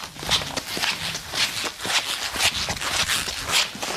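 Footsteps of a person in shoes walking across a floor, heard as steady, evenly spaced steps with bright, scuffing, slightly squelchy attacks over a continuous noisy background.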